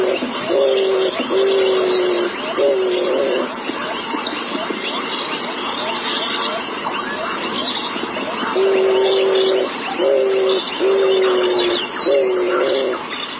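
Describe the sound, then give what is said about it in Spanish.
Repeated low, hollow cooing calls from a bird that has recently arrived in the Bogotá savanna, coming in a few short bursts of steady, low-pitched notes over constant background noise. “Lo que quería resaltar, Guillermo, aquí es que tiene una frecuencia baja, pero este sonido es un sonido nuevo en la sabana de Bogotá relativamente. Es un ave que llegó hace poco a la ciudad.”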